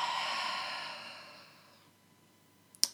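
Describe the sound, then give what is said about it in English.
A deep breath let out slowly during a guided breathing pause, a breathy exhale that starts fairly full and fades to near silence over about two seconds, followed by a short, sharp sniff. “Let's just pause and take a breath in through your nose and letting it out.”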